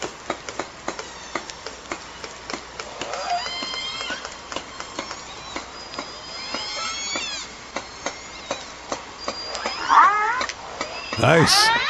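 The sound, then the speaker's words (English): Live orcas vocalise in a rapid train of regular clicks, joined by rising whistles and buzzing pulsed calls. A louder, strained call comes near the end. “Orca sound.”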